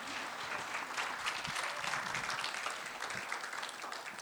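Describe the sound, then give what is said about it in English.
Audience applause at a church service, dense and steady clapping that fills the whole stretch at an even level, with no voices over it. “Let's give her a hand again, shall we?”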